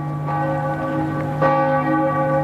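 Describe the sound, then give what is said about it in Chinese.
Amiens Cathedral's bell strikes twelve at noon. A few loud, resonant strikes ring out alone, each leaving a long, sustained metallic hum that overlaps the next. “亚眠大教堂正午十二点的钟声敲响”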